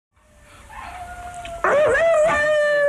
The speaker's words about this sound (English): Hey, you'll have to excuse the dog, listeners, but he doesn't know we're on the radio. How old is this dog? Seven weeks, so it doesn't really understand about the BBC yet.